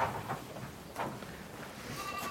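Goat bleats in a few short, nasal, wavering calls with a steady low background murmur between them.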